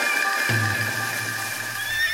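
A horse whinnies in one drawn-out, quavering neigh that starts sharply and trails off over a steady background hiss.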